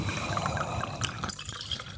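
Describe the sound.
A drink is poured from a bottle into a glass in a continuous gurgling, splashing stream. The liquid sound stays fairly even for about two seconds, with small drip-like splashes throughout.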